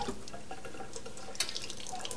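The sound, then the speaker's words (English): Running water while a child is washed up: a soft, continuous splashing trickle with a few small drips, faint and steady, with no voices. “Let's wash you up. Say wash, wash, wash. Wash, wash, wash.”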